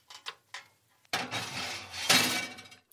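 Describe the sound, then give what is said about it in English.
Metal baking trays coated in goose fat go into an oven preheated to 200 degrees: a few light, quick clinks, then a longer, loud metallic scraping rattle that peaks toward the end. “Right, my two trays are coated. They are going in the oven, which has been preheated to 200 degrees.”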